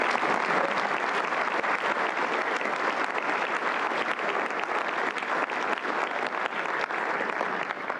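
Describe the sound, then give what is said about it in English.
Audience applause at a school gathering, given in thanks to the teachers: dense, steady clapping that holds an even level for the whole stretch and never fades. “I think we all owe them a round of applause”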